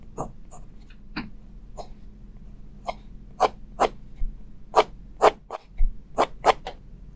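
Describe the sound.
Scratchy ink pen strokes drawn across paper at a fairly even speed, many short, crisp strokes in a steady rhythm, becoming slightly louder and closer together toward the end.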